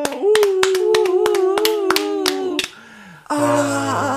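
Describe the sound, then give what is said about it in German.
Clapping hands: a steady series of crisp, evenly spaced claps beats under a held voice tone, then stops briefly before voices return loudly at the end. “Und dann ist das Lied zu Ende und du hörst den Applaus.”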